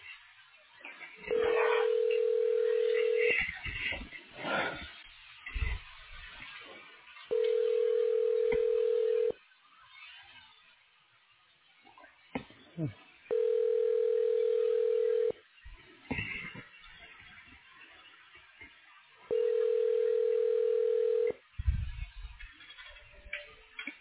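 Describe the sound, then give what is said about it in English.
Telephone line tones sound while a call is being transferred: four long steady tones of about two seconds each, evenly spaced. Quieter, irregular line sounds fill the gaps between them. “Please stay on the line as your call is transferred.”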